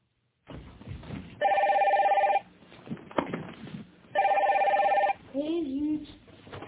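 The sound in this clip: A telephone rings in two separate bursts of about one second each, a bright trilling bell tone with quiet background noise between the rings. A voice begins speaking just after the second ring.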